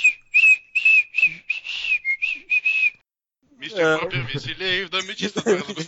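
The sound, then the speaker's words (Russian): A person whistles a lilting tune while tidying up, in short bright phrases. After a brief silence, a voice speaks. “И начинаю потихоньку, так, насвистывая.”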